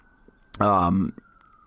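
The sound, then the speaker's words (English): A faint, steady siren tone runs through the background, holding at an even pitch while a short burst of voice cuts in over it midway. “sorry for the sirens in the background, but we can't really help it, and I don't feel like cutting this out”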